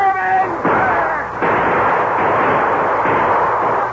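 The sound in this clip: Heavy gunfire from a riverboat firing on canoes: a few loud booming shots whose rumbling tails merge into a continuous roar, after a short shouted voice at the start.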